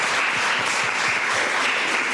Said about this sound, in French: J'aimerais qu'on s'applaudisse pour cette première session.